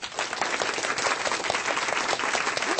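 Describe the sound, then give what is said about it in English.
Studio audience applause sound effect: thick, steady clapping from many hands that runs evenly from start to end at a fairly soft level. “Yeah, you do need this sound effect. Yeah. Dang. Female only member studio audience.”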